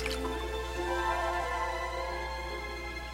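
Sea water dripping, with soft scattered drips over a steady low hum that runs through the whole stretch at an even level, with no voices.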